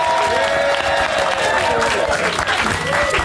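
A live studio audience in Nashville applauds and cheers, with dense, continuous clapping and scattered whoops rising over it toward the end.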